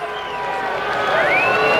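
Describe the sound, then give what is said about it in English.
Baseball fans booing the home team's relief pitcher at a ballpark after he gives up a base hit, a sustained roar of crowd noise that builds slightly louder toward the end. “Boo go the fans. They just do not like Soto. They were booing him the other night.”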